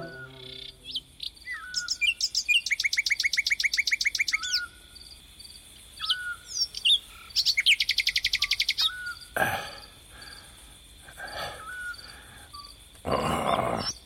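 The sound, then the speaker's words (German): A nightingale sings alone in varied phrases: rapid, loud, repeated trills and chirps alternate with short whistled notes and pauses, with many phrases over the stretch. “Diese verdammte Nachtigall. Ihr Gesang ist so süß, sagt Mama.”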